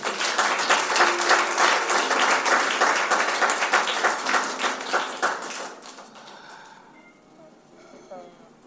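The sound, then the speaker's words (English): Audience applause during a sermon: dense, loud clapping holds steady for about six seconds, then thins and fades to a quieter close. “But a round of applause.”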